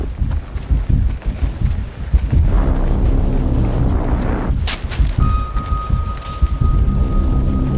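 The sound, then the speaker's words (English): Artillery attack explosions: many heavy, deep booms and rolling rumbles follow one another without a break, with sharper cracking bursts mixed into the continuous low roar. “Artillery attack!”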